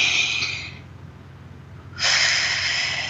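Deep breathing: two long, airy breaths of hissing air separated by a short quiet pause, with no voices.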